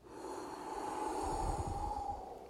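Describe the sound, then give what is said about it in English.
A deep, clean breath drawn in and then exhaled as a breathing demonstration: one continuous airy rush with a low, rumbling breathiness, swelling toward the middle and easing off at the end. “we'll just do a clean breath, like. And then exhale.”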